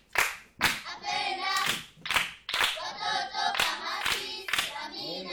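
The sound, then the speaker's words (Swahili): A church audience claps hands together in a steady, loud rhythm, with sharp, even claps on a regular beat and voices sounding between them. “Yes, tumpigie makofi.”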